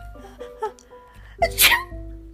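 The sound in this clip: A single sharp sneeze from a fairy with hay fever in a children's story, acted out by a voice. A short build-up leads to one loud, breathy burst, set against soft sustained musical tones.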